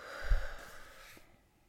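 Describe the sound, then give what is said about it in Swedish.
A single deep breath, a breathy rushing sound that swells quickly and then tapers off into quiet over about a second. “Är det så man gör? Ehm, ett djupt andetag.”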